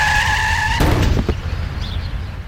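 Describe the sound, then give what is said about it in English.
Car tyres squealing in a hard skid at 40 mph, a loud high screech with engine hum that cuts off abruptly into a brief thud and clatter, then fading road noise. “This is the sound of a child being hit by a car at 40 miles an hour.”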